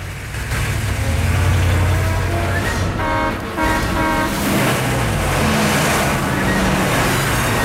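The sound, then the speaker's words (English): Three armored trucks roll along a downtown street with their heavy engines rumbling. The roar is loud and continuous, with a brief horn-like tonal blare near the middle. “Downtown, people are going about their business in the sunshine when three armored trucks come rolling along the street.”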